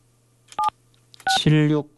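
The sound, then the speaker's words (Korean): Telephone keypad dialing tones: a short, loud touch-tone beep, then after a pause a second burst that runs into a buzzier, harmonic tone, all alone without background noise. “제가 바로 전화를 좀 드릴게요.”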